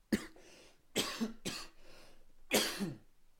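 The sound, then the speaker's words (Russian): Strong coughing fit from a man: four harsh cough bursts, some with a second catch, separated by short quiet gaps. “Прошу прощения, я скорее всего, вырежу, поэтому вы увидите склейку. Я сильно закашлялся.”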